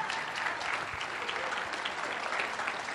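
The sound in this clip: A church audience claps to welcome a speaker up front, dense, steady applause from many hands that keeps an even level throughout.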